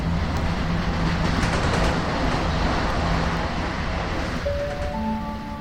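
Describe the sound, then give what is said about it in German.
A Eurocity train on a Munich to Venice service pulls into a platform with a loud, steady rumble and rattle. Its level eases slightly toward the end as high, thin squealing tones appear. “An Bahnsteig 3 fährt ein Eurotitel 87 TS-Pilot von München Hauptbahnhof nach Venedig.”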